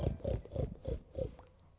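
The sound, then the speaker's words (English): A voice imitates a pig oinking with five short, rough, nasal grunts in an even rhythm, fairly loud and alone. “My old piggy went.”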